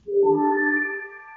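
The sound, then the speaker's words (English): A server notification sound from an audio video game: one synthetic electronic tone that swells in quickly, rises slightly in pitch, holds steady with bright overtones, then fades out after about a second. “Learn game sounds. Learn game sound notification from the server. A very important notification from the server. A notification from the server will sound like this.”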